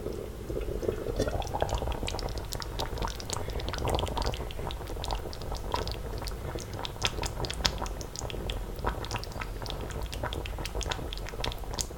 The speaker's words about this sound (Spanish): para que haga ese chup chup escandalosamente atractivo y que se cocine ahí, de forma tranquila durante media hora, 40 minutos. Aquí de nuevo, es el sonido el que nos guía. Mira cómo suena esto.